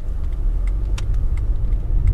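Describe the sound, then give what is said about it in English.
A car drives along a two-lane country road, Route 75 in rural southeastern Frederick. A continuous low rumble of engine and road noise is broken by a few faint ticks, and no talk is heard. “Driving down Route 75 in southeastern Frederick, you get a sense of just how rural a lot of this county is.”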